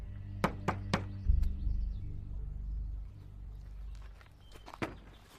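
Someone yanks the handle of a stuck, worn wooden shed door. Three quick, sharp knocks lead into a heavy low thud and a brief rumble, followed later by scattered faint clicks and one more knock, all fairly quiet.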